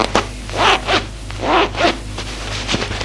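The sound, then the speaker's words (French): A trouser fly zipper being opened gives a few short rasping pulls in quick pairs, fairly loud and alone. “Ouvre sa braguette.”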